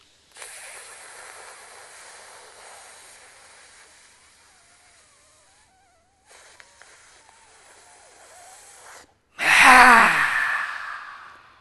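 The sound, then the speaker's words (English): Deep breaths drawn in through the nose during a guided breathing exercise: two long, soft, airy inhalations separated by a brief pause, then a short, much louder, forceful rush of breath near the end. “Inhale.”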